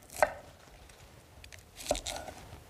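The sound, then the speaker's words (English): A knife chops a vegetable into small, bite-sized florets: a couple of crisp, faint cuts with light crunching between them. “And we're just going to cut it into kind of florets, just kind of small, bite-sized pieces.”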